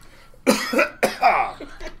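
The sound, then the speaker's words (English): Coughing: a few harsh, voiced bursts in quick succession with short pauses between them, loud and alone with no talk. “You can't stop from coughing. I can't stop from coughing.”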